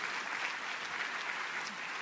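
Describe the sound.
Audience applause at a talk: a dense, even clatter of many hands clapping together, steady and moderately loud, with no voices over it.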